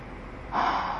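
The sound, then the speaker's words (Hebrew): A deep breath taken on cue in a guided exercise class on a mat: a soft, airy rush that swells suddenly about halfway through and holds steady to the end, with no talk. “קחו שאיפה, בנשיפה תרפו”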